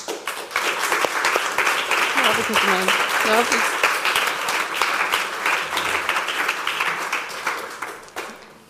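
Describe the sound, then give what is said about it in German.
Audience applause welcoming a government councillor at an event on inclusion and politics: loud, sustained clapping from many hands, with a few voices calling out beneath it, tapering off near the end. “Heute ist es Inklusion und Politik und begrüßt doch mit uns ganz herzlich unsere Regierungsrätin Michaela Tschur.”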